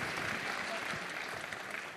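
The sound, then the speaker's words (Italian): Applause from an audience welcoming a politician onto the stage at a political event, a fairly faint but continuous patter of many hands clapping throughout. “Salutiamo, ci sta raggiungendo sul palco Deborah Serracchiani, che salutiamo con un applauso.”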